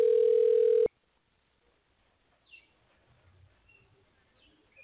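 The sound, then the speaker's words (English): A telephone dial tone on an outgoing call holds steady and loud for under a second, then cuts off abruptly into near silence broken only by a few faint high chirps. “Let's see if I could call. Okay. Yep, I'm calling.”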